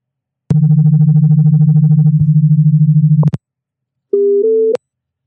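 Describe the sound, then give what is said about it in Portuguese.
Telephone call tones while dialing a listener: a loud, buzzy, rapidly pulsing low tone lasts about three seconds, then after a short silence a brief, cleaner, higher electronic tone steps up slightly in pitch. No voices are heard. “Vamos ver se ele me atende aqui. Vou ligar.”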